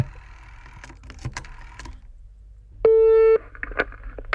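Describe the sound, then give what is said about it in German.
Dialling a number on a desk telephone set: a quick series of clicks and taps from the keys, then a single short steady line tone, followed by a few more clicks. “Ja, ich habe ja direkt auch den Telefonapparat hier vor mir stehen. Und dann haben wir schon vorbereitet, eine Nummer rausgesucht. Und die wähle ich jetzt einfach mal an.”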